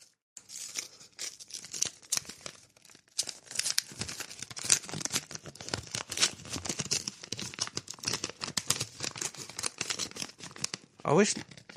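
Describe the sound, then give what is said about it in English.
An envelope of mail being torn open: many rapid ripping and crinkling bursts of paper run for about twelve seconds, ending in a sharper, louder rip. “I wish they put, like, a rip line on an envelope. Because that noise, the noise that you just heard was not very alluring. Opening mail doesn't sound great.”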